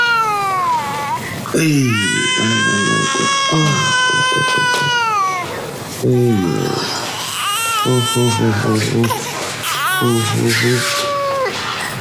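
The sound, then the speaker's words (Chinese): Infant crying in loud, high wailing bursts that break into whimpers. Several separate cries are divided by short pauses, with a long sustained wail near the start. “我一抱上人就不哭了。哎呀，小家伙还讹上我了。”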